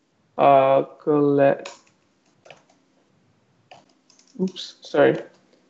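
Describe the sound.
Computer keyboard typing of a .NET Trace command: a few sparse, soft key clicks between stretches of a person speaking.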